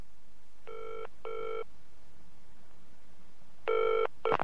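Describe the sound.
Telephone ringback tone from a call placed to a hotel: two paired rings, a longer silence, then another ring cut short by a click as the line is answered.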